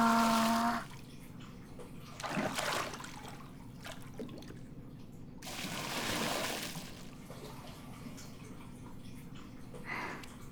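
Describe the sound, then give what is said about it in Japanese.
Hot water poured over a person in a bath, heard as a few splashing pours with quieter trickling between them. “まずはお湯ザバ”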